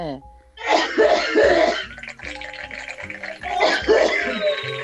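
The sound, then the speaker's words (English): A wheezing, hacking cough comes in a few harsh, raspy bursts with short breathy gaps between them, loud and rough in tone. “I got a wheezing, hacking cough.”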